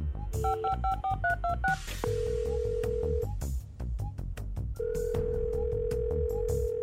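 Touch-tone beeps of a phone number being dialed come as a quick run of short tones, then two long, steady ringback tones. No voices are heard.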